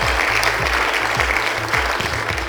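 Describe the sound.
Audience applause welcoming two show hosts, dense and loud steady clapping that fills the whole moment without pause.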